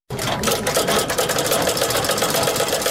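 A sewing machine stitches sheepskin coats in a Ghazni workshop, with a steady, loud, fast mechanical whirr and rattle that runs unbroken from its start to the end.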